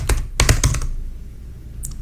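Typing on a computer keyboard to enter a word into a search filter: a quick run of clicky keystrokes, a pause, then a single faint tap at the end.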